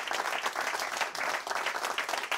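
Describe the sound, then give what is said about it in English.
Audience applause at a live golf-themed show, a steady, dense wash of many hands clapping that holds at an even loudness throughout, with no talk over it. “so you guys could clap a little”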